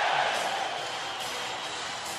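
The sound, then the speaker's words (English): Hockey arena crowd cheering in a standing ovation after a San Jose Sharks playoff goal, a broad, steady wash of crowd noise, fairly faint, easing slightly after the opening moment. “A standing ovation. The crowd is on its feet for Owen Nolan.”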